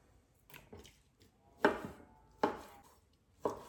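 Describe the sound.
A knife cuts fish into even 3 to 5 cm chunks for fish tacos, giving a few soft, irregular chopping strokes that thud quietly against the cutting surface.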